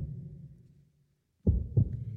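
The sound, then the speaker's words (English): Muffled heartbeat: two low, dull thumps in quick succession after a fading low hum and a brief silence, with a steady low hum continuing afterward. “But for many minutes, the heart beat on with a muffled sound.”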